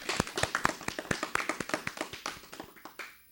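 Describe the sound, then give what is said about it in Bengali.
Applause from an audience for a young child after a song: many quick, crisp hand claps in an uneven patter that thins out and fades toward the end. “আমাদের ছোট্ট বন্ধুর জন্য এবারে জোরে একটা করতালি হোক।”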